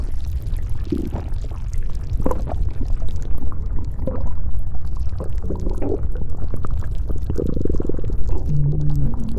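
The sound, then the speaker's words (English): A hungry stomach rumbles and gurgles with a wet, sloshing churn of liquid. The low bubbling runs steadily for the whole stretch at moderate loudness, with no talking. “Judging by the sound of my tummy and by the way you're sloshing around in there”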